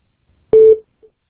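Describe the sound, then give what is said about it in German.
A single electronic voicemail beep rings out before a message is left: one steady, mid-pitched tone lasting about a quarter second, followed by a much fainter, very brief blip. “Bitte hinterlassen Sie eine Nachricht nach dem Ton.”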